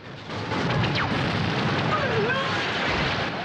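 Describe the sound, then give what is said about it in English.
Explosions rip through the interior of a space station as one continuous, dense roar, with no separate booms standing out. “The elite return fire, and the inside of the space station is ripped apart by a series of explosions.”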